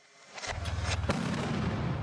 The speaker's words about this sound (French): Ça, c'est une grenade désencerclante, vous voyez C'est ce qui propulse environ une trentaine de morceaux de caoutchouc à très haute vitesse.